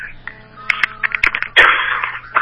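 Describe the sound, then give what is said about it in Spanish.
Someone coughing and clearing their throat: a series of short, sharp bursts, then a longer, harsher rasping cough and a final quick one. “Como estamos terminando, permítanme que tosa.”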